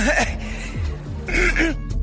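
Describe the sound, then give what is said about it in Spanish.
A person choking and coughing, with short strained, raspy throat-clearing bursts and gasping voiced sounds that break and drop in pitch. “Disculpen ustedes. Se está ahogando.”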